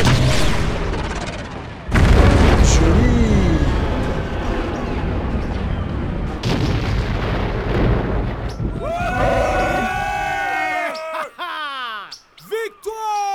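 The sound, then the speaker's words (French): A rocket launcher explodes in a video game with a loud boom about two seconds in, followed by a long rumbling roar. Chirping, sweeping tones come in toward the end. “Les gars, le MOF est en train de partir là! Dégommez-le! Il faut surtout pas qu'il s'en aille! Lance-roquette!”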